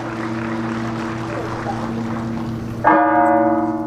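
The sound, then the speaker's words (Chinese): Sustained ringing tones from a loud, harsh bell at a shooting competition venue hum steadily before a single fresh clang near the end brings a brighter burst of ringing. “今天现场的噪音还是比较多的啊，像这种比较刺耳的敲钟的声音，还是会对选手有一定的影响。”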